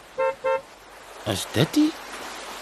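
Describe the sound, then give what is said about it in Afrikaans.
A BMW car horn gives two short, bright, evenly spaced toots, and then a voice speaks. “Is dit die meneer Jack de Wet se fancy BMW nie? Hy flits sy ligte.”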